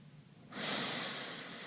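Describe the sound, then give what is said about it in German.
One slow breath during a guided breathing exercise: a soft, airy rush that swells suddenly after a quiet start and holds steady and even to the end, with no talk. “Wir atmen nochmal ein und wir atmen nochmal aus.”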